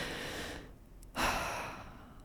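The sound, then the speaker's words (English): A deep breath taken during a group breathing exercise: a soft breathy hiss, a brief quiet pause, then a louder, rushing exhale that slowly fades. “Let's take a deep breath all together.”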